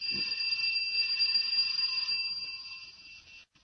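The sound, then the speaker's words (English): An electric doorbell rings at the front door of a seemingly deserted house: a steady, high, buzzing ring that holds unbroken for a few seconds, then cuts off abruptly. “I'll try the bell.”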